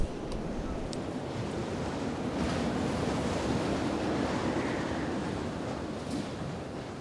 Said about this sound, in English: But hey, the wind's only blowing over the tent most of the time, so we'll be fine.